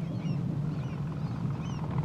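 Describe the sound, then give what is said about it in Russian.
Steady low engine drone of a small motor launch passing by on the water, even and continuous throughout with no voices. “Мимо проплывает небольшой катер. Еще несколько стоят у причала.”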